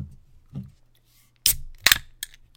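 A can of grapefruit-flavoured drink being cracked open, with two or three sharp, crisp cracks and clicks in close succession. Softer low handling knocks come before them.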